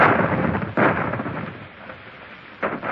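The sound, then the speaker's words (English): Cannon fire from a warship's guns: a few heavy, rumbling booms, each a loud burst that fades into a low roar before the next. “I advise you to put up that pistol and surrender, Captain Neuville. Those are the guns of the Indefatigable.”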